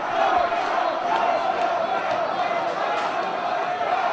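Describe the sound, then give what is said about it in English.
A crowd shouting down a protester: a dense, steady roar of many raised voices yelling together, continuous and unbroken for about four seconds. “And there's a protester who gets shouted down by the crowd.”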